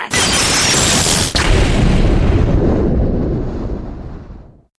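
A magic lightning bolt spell effect: a loud, crackling, rumbling blast that bursts in at once, holds as a dense roar for several seconds, then fades out.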